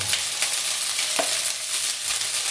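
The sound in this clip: Rice stir-frying in oil in a pan gives a steady, bright sizzle with soft scraping stir strokes, and no one speaks.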